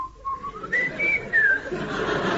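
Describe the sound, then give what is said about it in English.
Someone whistles a short tune of a few clear notes, stepping upward in pitch with brief wavers, loud against faint background hiss. “I told him he could whistle for it.”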